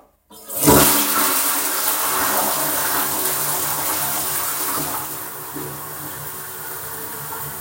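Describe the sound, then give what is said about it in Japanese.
A toilet flushes with a sudden loud rush of water after a brief silence, then a steady, roaring gurgle of draining and refilling that eases slightly toward the end. “すごいやっぱ流す音入れた方がいいってことだったんですけど、爆音になりましたね。”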